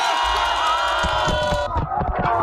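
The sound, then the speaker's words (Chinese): A crowd cheers and shouts loudly at a neighbourhood summer water-ball catching contest by a pond, with a bright whooping din that breaks into scattered voices partway through. “荷塘趣味比拼圆满结束，整片池塘久久回荡着大家的欢笑与喝彩。”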